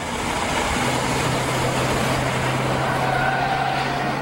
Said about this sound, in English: backs away, then drives out of the parking lot.